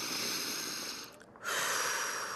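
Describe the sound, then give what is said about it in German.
A patient takes a deep breath in during a medical examination. The breath is a soft, airy hiss that stops briefly, then returns as a stronger, fuller intake of air. No talking. “Tief einatmen, bitte.”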